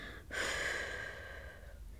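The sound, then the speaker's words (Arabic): A long, deep breath drawn during a slow breathing exercise: one steady, airy rush lasting over a second before it fades, quiet and alone. “اخرج الهواء كاملا من رئتيك”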